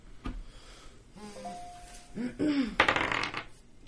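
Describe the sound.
Dice being rolled during a tabletop role-playing game: a single tap, then a brief clattering rattle of dice near the end.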